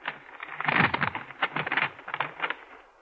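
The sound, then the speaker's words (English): An envelope is opened: crisp paper tearing and crinkling in a quick series of rustling rips that swell, then trail off toward the end. “And now I open the envelope.”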